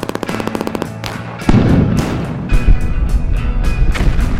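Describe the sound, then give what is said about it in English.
Gunfire from soldiers in camouflage in a Vietnam War battle scene as tanks roll ahead: a rapid string of sharp shots, then heavier booming blasts over a deep, continuous low rumble. “Ground forces dressed in camouflage kneel in the grass as they fire their weapons. Tanks roll ahead of them.”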